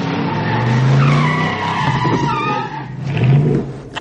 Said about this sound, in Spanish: El DeLorean para. Retrocede unos metros.